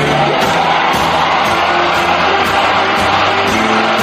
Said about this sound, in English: four, three, two, one, ignition.